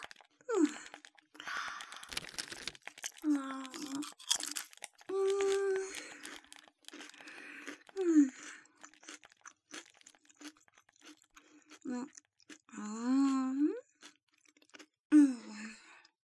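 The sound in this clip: Potato chips being eaten, with many crisp, brittle crunches and chewing bites scattered irregularly across the stretch, interleaved with soft, breathy vocal sighs and moans.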